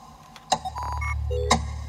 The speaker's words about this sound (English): Tick, says the clock.